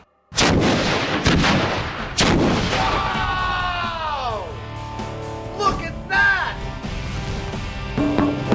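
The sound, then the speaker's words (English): A sewer explosion set off by a spark: a sudden heavy blast followed by a long roaring, rumbling wash of sound that slowly settles, with excited voices calling out over the din. “real world sewer explosion, best case scenario, sparking in 3, 2, 1.”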